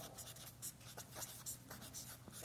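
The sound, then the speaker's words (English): Scratchy strokes of something being written down, a steady run of many short rasping bursts with an uneven rhythm, fairly faint, with no talk. “I'm going to write this down.”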